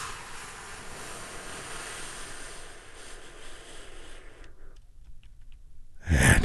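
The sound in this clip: A deep breath drawn in and let out: a long, steady, airy rush of breath lasting several seconds, a short quiet pause, then a louder burst of breath at the end.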